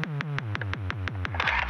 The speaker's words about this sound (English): That is the strobe light that I have.